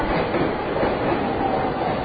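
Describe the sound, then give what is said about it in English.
Packed passenger train running on the track in the other direction at a large, busy station, a continuous loud rumble and wheel rattle with a faint high squeal, steady throughout with no voices. “That's our train going in the other direction.”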